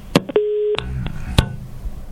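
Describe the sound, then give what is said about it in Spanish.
Telephone tones as a call cuts off: a few sharp clicks and short beeps around a steady low tone held under half a second, over a faint, noisy line. “Qué pena, se cortó la comunicación.”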